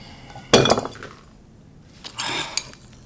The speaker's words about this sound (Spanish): Ha tirado la copa de vino.